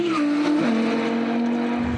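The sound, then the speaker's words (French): A naturally aspirated car engine howls at high revs on a race circuit straight at around 225 km/h. Its pitch drops sharply at one gear change, then climbs steadily again. “Rien de tel que l'Atmo. Plus sonore, plus linéaire et plus savoureux à chaque changement de vitesse.”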